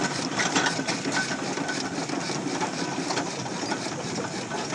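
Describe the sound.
A traction engine runs with a steady, busy mechanical clatter, a dense fast rhythmic chugging that holds at an even level throughout, with no voices.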